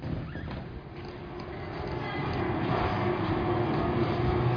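Train at a station while a passenger boards, heard as a broad, steady low rumble that slowly swells louder over a few seconds, with no voices present.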